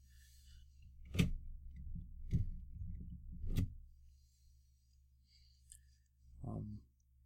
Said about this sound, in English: You can't see us right now, but he's spinning a pen. Yeah, I'm spinning that pen. I do the four finger method. I don't use my thumb. Just don't blow us up. Click, click, click.